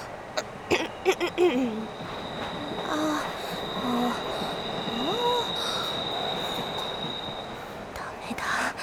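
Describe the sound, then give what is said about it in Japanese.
Noise inside a crowded passenger train: a steady rumbling roar with wheel squeal and a thin high whine. A few sharp clicks come near the start. “電車の音がうるさい”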